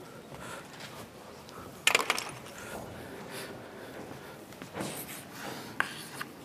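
Writing on a board during a lecture: faint, irregular scratching strokes with a few sharper taps, quiet and uneven over a soft background hiss.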